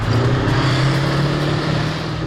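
Steady, loud, low engine rumble of a Warrior armoured vehicle driving laps around an arena at an annual tank festival in Dorset, holding an even drone throughout with no voices.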